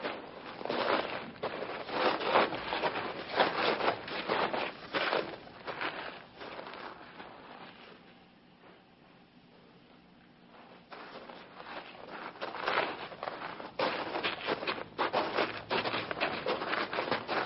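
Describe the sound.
Footsteps of people walking on a long hike, with many steady steps and rustling that dip to a quieter stretch midway before resuming at the same even pace.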